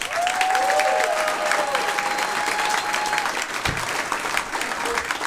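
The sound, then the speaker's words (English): Audience applauding and cheering at a stand-up comedy show: steady, loud clapping throughout, with a brief whistle early on. “Make a lot of noise for the very funny Tom Simmons.”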